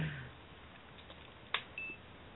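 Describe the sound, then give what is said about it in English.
A couple of short, high electronic beeps from a phone that no longer holds its charge well, faint and brief against a quiet background. “somebody just beeped. That would be me, but you know what? I don't think my phone is keeping a charge as well as it used to.”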